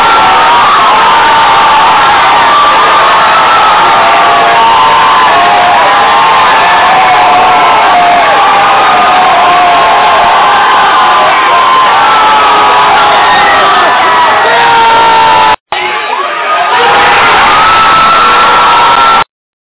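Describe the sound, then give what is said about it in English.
Seattle Seahawks fans cheer at a bar in New York City in a loud, continuous roar of shouts and whoops that cuts out briefly near the end, then resumes just as loud. “That noise is coming from New York City. It's the Seattle Seahawks fans.”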